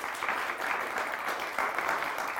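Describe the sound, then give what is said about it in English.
An audience gives a round of applause at a Christmas event, a thick, even wash of clapping that keeps a steady level for the whole stretch with slight swells. “Let's give a wee round of applause for it.”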